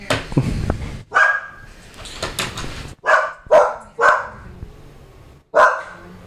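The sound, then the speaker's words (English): A dog barks frantically while a lawn is being mowed. It lets out a few loud, sharp barks at irregular intervals, with scuffling noise between them and no talking. “The dog was just losing its mind because the lawn guy came to mow the lawn.”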